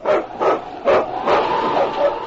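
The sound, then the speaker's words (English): Husky lead sled dog barking in several sharp, mid-pitched barks and yips with a slightly whining edge, in quick irregular succession. “It's Yukon King, swiftest and strongest lead dog of the Northwest”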